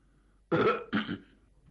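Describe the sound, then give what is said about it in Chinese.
A man clears his throat in two short, rough, gravelly bursts, the first slightly longer than the second, heard alone against near silence. “张作霖一看人都来得差不多了，清了清嗓子”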